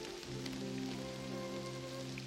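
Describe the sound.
Steady rain falls on a woman standing outdoors near the Statue of Liberty, a dense continuous hiss with low sustained tones beneath it.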